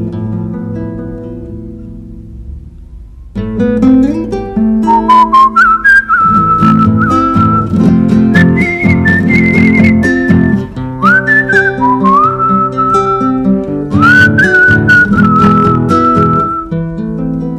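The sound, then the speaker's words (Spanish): Melodic human whistling meant to urge on an ox pulling an old cart: clear, sustained whistled notes that step upward and hold, repeating in phrases over a steady low drone. “Cómo le cuesta a la pobre, ayúdala con el silbo, ayúdala con el silbo.”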